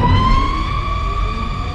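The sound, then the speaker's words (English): A Batmobile powers up, its wailing motor built from a bottle rocket sound. A loud, steady whining tone drifts slightly upward above a dense, rumbling roar, with no voices. “That's the Batmobile powering up in the 2022 Batman movie starring Robert Pattinson.”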